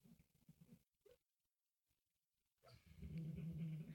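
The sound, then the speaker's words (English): Dog growling and whimpering in its sleep during a nightmare: soft, muffled whimpers and a brief yip, a near-silent pause, then a louder, sustained, low growling moan. Faint overall. “Our dog is having a nightmare making sounds that he's never made before.”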